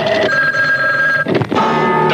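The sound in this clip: A telephone rings after a number is dialed for a cash call-in giveaway. It is a steady, buzzy electronic ring that breaks briefly near the middle and then resumes, with no talk over it.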